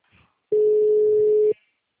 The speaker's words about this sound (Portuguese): Tô ligando.